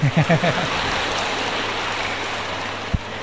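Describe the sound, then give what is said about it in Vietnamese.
An audience claps at a Buddhist dharma talk, a dense, sustained wash of applause that rises after a brief voice at the start and carries on to the end, broken by one sharp thump near the close. “Vỗ tay đi chứ.”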